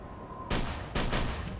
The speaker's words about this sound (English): The lock's badly rusted. Well, shoot it off.